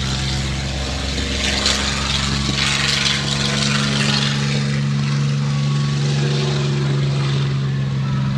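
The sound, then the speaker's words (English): Yak propeller aircraft engine roaring: a loud, steady, throaty drone with a strong low hum that holds for the whole clip, no voices. “There goes the Yak. You can probably hear that now.”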